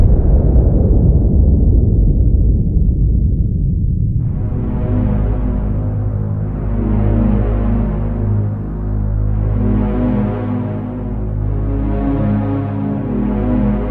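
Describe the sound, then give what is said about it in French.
The explosion of the atomic bomb dropped on Hiroshima: a loud, broad roar fades over about four seconds into a steady, deep, throbbing rumble with a pulsing hum that continues to the end. “La lumière verte, j'appuie sur le bouton. Voilà, je viens de jeter une bombe sur Hiroshima.”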